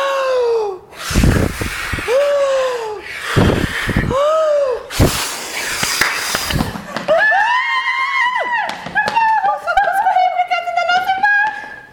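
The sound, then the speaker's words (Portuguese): A voice imitates a wolf blowing hard to knock a house down, with a few loud, breathy gusts of blowing set between voiced, tonal sounds. “Senão eu vou soprar. Pode soprar, que você vai conseguir. vou soprar até essa casa cair, pois com a minha fome está de arrepiar.”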